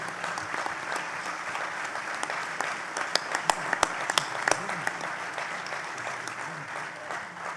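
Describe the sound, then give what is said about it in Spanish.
Applause from a crowd at a trade union gathering. Dense, steady clapping fills the whole clip, with a few sharper, louder claps standing out around the middle. “también pido en este un gran reconocimiento y un fuerte aplauso”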